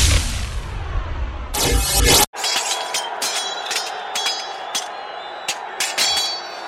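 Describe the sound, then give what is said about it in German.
Real swords clashing in a fight. A burst of harsh noise gives way to many bright metallic clinks and rings, striking at irregular intervals over a steady noisy bed. “Die kämpfen ja mit echten Schwertern.”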